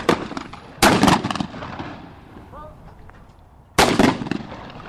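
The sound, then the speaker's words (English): Gunshots are fired at a rod and gun club from a gun loaded with extra powder: two loud booming reports, each trailing off in a rumbling decay, with a softer crack at the start and a faint voice between them. “Nice shot. She has more powder in there, so it's going to go oomph.”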